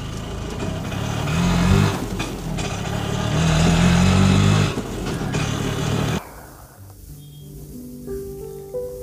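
Engine drone and road noise of an auto rickshaw ride. A loud, steady rumble runs most of the way, then drops abruptly to a quieter, lower hum near the end.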